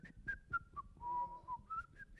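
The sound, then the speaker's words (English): A person whistles a tune: a few short notes stepping downward, a long held lower note, then notes climbing back up. The whistling is faint and clear, with no voices over it. “whistle while you work”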